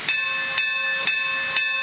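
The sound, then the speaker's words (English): An old steam locomotive built in 1923, engine 4960 on the Grand Canyon railway, hisses in four evenly spaced bursts of breathy steam over a steady high ringing tone. “Once a month is pulled by an old steam engine 4960, built in 1923.”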